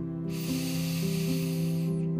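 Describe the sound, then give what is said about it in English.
A deep inhale during a guided relaxation, heard as a soft, airy hiss that swells and holds for about two seconds over sustained, gentle musical tones. “And one more deep breath in with me.”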